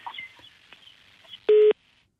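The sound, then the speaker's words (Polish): A phone-line tone after a dropped call: one short, loud, steady beep rises out of faint background noise and cuts off abruptly into silence. “No, przerwało połączenie.”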